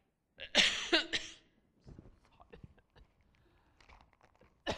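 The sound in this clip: A few harsh coughs burst out in quick succession, loud against the quiet, followed by faint small sounds.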